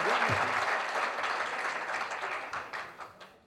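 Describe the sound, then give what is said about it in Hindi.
Loud applause from an audience at a live Hindi song and poetry performance, a dense, steady wash of clapping that holds strong and then gradually thins and fades toward the end. “एक जोरदार ताली बजाओ”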